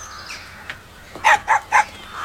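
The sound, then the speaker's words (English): Crows attacking a man let out a quick series of short, harsh caws in the second half, after a quieter opening. “Looks like a poor man being attacked by crows.”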